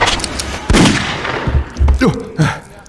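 Gunfire aimed at an attacking creature in fog: several loud, sharp shots in quick, uneven succession, each a hard crack or boom, with short pauses between bursts.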